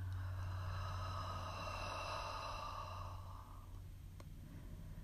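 A person exhales deeply during a guided breathing exercise: one long, soft, breathy rush that lasts a few seconds and gradually fades, over a low steady hum.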